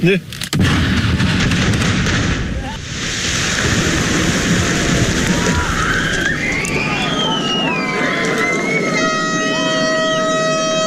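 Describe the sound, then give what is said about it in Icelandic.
A first blasting explosion in subsea tunnel construction in the Faroe Islands: a sudden, loud boom becomes a long rumbling roar. Tonal, horn-like sounds and whistles rise near the end. “Fyrsta sprengingin í Austureyjagöngunum í Færeyjum, strandamegin, hátíðlega töfn og mikill fögnuður.”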